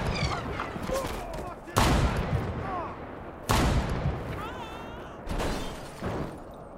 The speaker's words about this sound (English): It's a sniper! It's a sniper! Everybody get down!